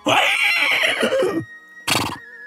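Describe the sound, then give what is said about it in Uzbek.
A horse neighs loudly alone, a long, shrill whinny wavering in pitch for over a second. After a short pause comes a brief, breathy second burst. “Shu payt maymun bilan ot ham baravariga baqira boshlashibdi.”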